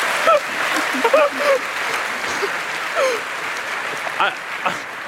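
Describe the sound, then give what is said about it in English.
Audience applause fills the whole stretch as dense, even clapping, with a few scattered voices and cheers breaking through. “one enjoys how that gets a larger applause than our introduction”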